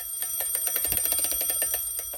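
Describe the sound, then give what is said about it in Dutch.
Rapid metallic ringing from a mechanical alarm clock with a faulty alarm, set off as it is wound; a fast, even, fairly faint bell rattle that continues unbroken, with no voices. “Als ik de wekker wil opwinden, rinkelt het naarmate dat ik wring, en later geeft hij niets meer.”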